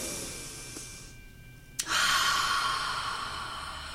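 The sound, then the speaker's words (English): A deep inhale taken with eyes closed during a group centering exercise: a soft, steady airy hiss, then a sudden stronger intake partway through that carries on as a long, loud rush of breath. “take 3 deep breaths. Inhaling.”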